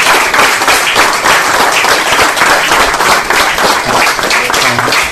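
Audience applause at a gathering of a Danish civic network: dense, loud clapping from many hands that stays steady throughout without a break.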